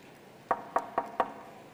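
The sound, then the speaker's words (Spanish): Four sharp knocks on a door come in quick, even succession, fairly faint against a quiet background. “Imagínate que es de madrugada, un viernes de hace casi 2000 años. Llaman a la puerta y estás durmiendo.”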